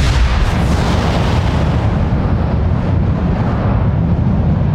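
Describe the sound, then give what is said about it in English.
A magical eruption of stone and earth bursting up from the ground, rendered as a loud, deep, continuous roaring rumble like an explosion, with rocks and dirt thrown into the air. “Level 3 transmutation, erupting earth! A fountain of stone and earth erupted out of the ground directly underneath Flint, throwing rocks and dirt flying into the air.”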